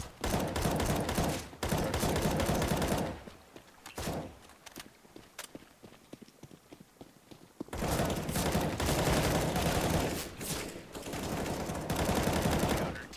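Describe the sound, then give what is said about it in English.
Automatic rifle fire from an M4A4 in a video game, coming in loud sustained bursts. A quieter middle stretch carries only sporadic shots before the heavy fire resumes. “That M4A4 sounds amazing.”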